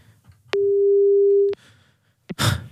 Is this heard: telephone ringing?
yes